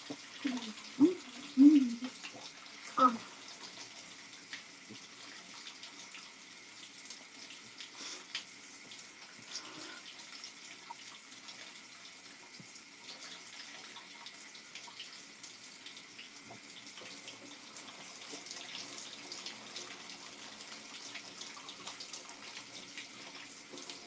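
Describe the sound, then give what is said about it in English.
Running tap water as someone washes their face at a sink: a soft, steady stream under a few louder splashes and knocks in the first few seconds, then quieter continuous flow. “Now to wash my face.”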